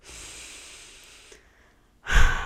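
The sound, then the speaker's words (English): A deep breath taken as a breathing exercise: a long, airy inhale of more than a second, a short quiet pause, then a louder, rushing exhale at the end. No one speaks. “But it's always nice to take a deep breath. So, 1, 2, 3.”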